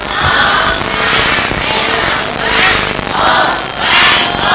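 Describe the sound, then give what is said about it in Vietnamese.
Students give a loud, sustained round of applause and cheering to welcome a doctor. The dense clapping swells and eases in repeated waves. “đề nghị các con bây giờ mình hoan hô một cách hay hơn nữa”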